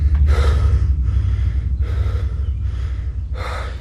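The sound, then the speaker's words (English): A man gasps for breath as he wakes from a nightmare in bed: about five heavy, ragged breaths in and out, sharp and airy, over a steady low hum. “he suddenly awakes from the nightmare, clutching his heart and struggling to catch his breath in bed.”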